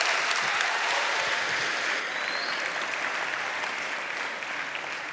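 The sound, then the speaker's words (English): An audience applauds to welcome a speaker with a dense, steady wash of clapping that stays loud throughout and eases slightly toward the end. “Will you just make some noise and welcome Jason”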